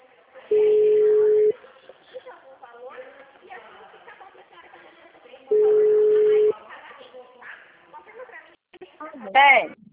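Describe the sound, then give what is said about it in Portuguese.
Telephone tone after a dropped call: two long, steady mid-pitched beeps, each about a second, spaced several seconds apart, with a person talking between and after them. “Oi, caiu a ligação.”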